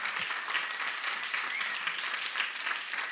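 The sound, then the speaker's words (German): Warm applause from an audience at a church service, with dense, even clapping that holds steady throughout. “Gebt ihnen mal einen herzlichen Applaus”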